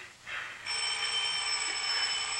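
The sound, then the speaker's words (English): A telephone ringing just before it is picked up. After a brief lead-in, a steady, bright electronic ringing tone sets in and holds at an even level without pause. “Tom's intense gaze darts from Elizabeth to the phone. He picks up.”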